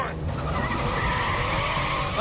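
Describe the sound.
Car tyres skidding in a video game driving segment: a continuous, loud screeching hiss over an engine roar, lasting about two seconds without a break.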